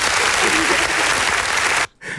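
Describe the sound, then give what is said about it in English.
A canned crowd-laughing sound cue gives a dense, loud wash of audience reaction that cuts off abruptly, followed by a brief burst of talk. “I need the crowd laughing cue there.”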